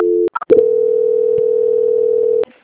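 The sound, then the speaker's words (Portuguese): A telephone tone plays during a call transfer: a brief steady tone, a few short clicks, then a long, continuous, loud tone held at one pitch for about two seconds before it cuts off abruptly. “Eu estou transferindo novamente só para finalizar, tá?”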